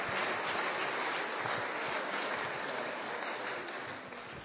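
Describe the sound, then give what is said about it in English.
An audience applauds to welcome guests, a dense, even wash of clapping that holds steady and fades slightly near the end, fairly faint and without voices. “Give them a hand and give them a good welcome.”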